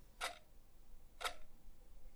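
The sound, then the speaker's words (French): Two sharp, dry ticks from a clock's second hand, spaced one second apart, faint against a quiet background. “ce n'est pas exactement le même son répété en boucle. Parfois l'aiguille est bien rigide, donnant un son sec et court.”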